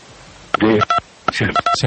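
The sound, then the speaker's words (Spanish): Keypad tones from a mobile phone whose buttons are pressed during a call, several short electronic beeps in quick succession, mixed with a voice talking. “Senador, le pido el favor, es que debe estarle usted oprimiendo los botones a su teléfono celular y se está interrumpiendo la llamada.”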